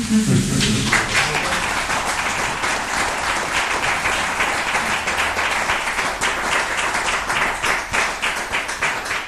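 Audience applause after a poetry reading, a dense, sustained clapping that fills the whole stretch at a steady, fairly loud level, with many hands beating at once and no break.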